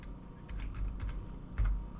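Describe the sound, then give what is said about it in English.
Someone types on a computer keyboard: a quick run of light key clicks with a few heavier, dull thumps. “Yeah, I just typed in Kip Killigan.”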